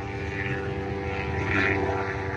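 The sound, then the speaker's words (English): Police helicopter flying overhead: a steady, droning engine and rotor hum with layered tonal harmonics, swelling slightly louder toward the end. “here comes a helicopter. I don't know how much we're going to just wait on that.”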